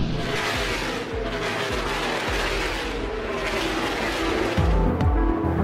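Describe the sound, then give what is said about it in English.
Race cars roar around a Texas NASCAR track: a dense, continuous engine drone with throaty low rumble, and a few sharp rising-and-falling whines sweeping through near the end as cars pass. “A NASCAR meeting at a track in Texas earlier this year, just before COVID brought motor racing events across the US to a halt.”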